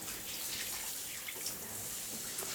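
Warm water streams and splashes over a body in a shower, making a faint, continuous hiss with small irregular drips and patters and no voices.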